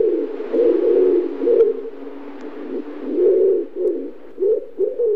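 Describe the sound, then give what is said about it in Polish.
Pigeons coo in the historic buildings of a university in Kraków, giving a run of low, throaty, rolling coos in several loud phrases with short gaps between them, with no talk over them. “No i gołębie w tle.”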